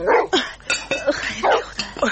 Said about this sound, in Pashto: دا د تنګ د کیږدۍ سپی چا ته غپیږي؟